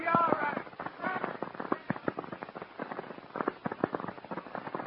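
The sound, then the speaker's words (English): Gunshots from a gun fired in a street scene of a radio drama, many sharp, rapid cracks in irregular bursts that keep going throughout. “There's a crazy guy in the street outside my store shooting up the place.”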